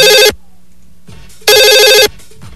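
Electronic telephone ringtone from an incoming call, sounding in two loud warbling bursts split by a pause, with a faint low hum in between.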